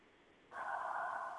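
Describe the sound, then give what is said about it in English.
A deep breath drawn in: a soft airy hiss that starts abruptly and holds steady for about a second. “Take a deep breath. Let that go.”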